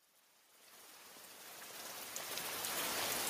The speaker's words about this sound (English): So it's just the sound of the dripping rain on leaves or streams, maybe some thunder.